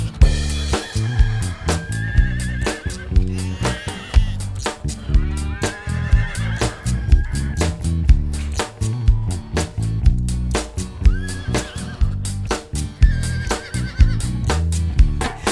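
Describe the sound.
A horse neighs and whinnies several times over steady, beat-driven music, with the rising and falling calls standing out above a loud, rhythmic backing track.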